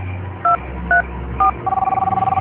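A telephone keypad sounds three separate dialing tones while calling a roommate, then a fast, steady pulsing tone follows.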